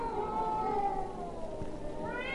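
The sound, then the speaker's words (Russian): Cats caterwauling on city rooftops at night in March: long, drawn-out, wavering yowls that hold steady and overlap without pause, loud and tonal throughout. “Звучит знаменитый кошачий концерт.”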